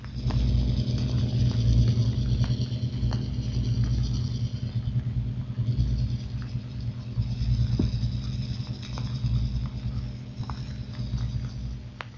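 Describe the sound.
A steady, low throbbing rumble from a cruiser travelling at 15 knots, picked up on sonar listening gear at about 20,000 yards. Faint, regular ticks sit over the continuous hum.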